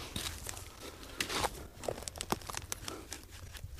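A fine-sand section wall in an excavation trench is scraped fresh, giving faint, gritty scrapes and crunches in irregular strokes.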